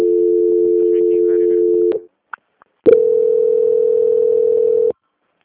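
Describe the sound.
A telephone line tone while a call is being transferred: a long, steady, loud tone stops, a few faint clicks follow in a short gap, then a second steady tone of similar pitch holds for about two seconds.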